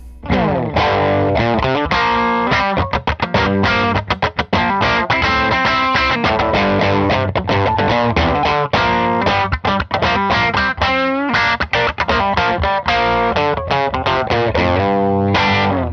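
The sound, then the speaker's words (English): Electric guitar played through a JHS Crayon overdrive pedal set to its low hump voicing produces loud, continuous, crunchy distorted chords and riffs with a thick, full low end. “And now I'm working it up to settings that I like more. So now with the texture left on the right where I like it, I'm going to move the voicing to the low hump setting.”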